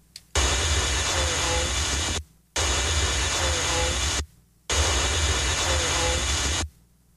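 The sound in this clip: Motor noise from inside a vehicle: a loud, dense rumbling roar heard in three nearly identical stretches, with brief silences between them.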